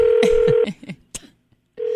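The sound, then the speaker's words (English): A telephone call being dialed: a steady tone plays, breaks off into several clicks and knocks, falls silent briefly, then the steady tone returns. “We're going to talk to him. I'm going to call Dolvette. Awesome.”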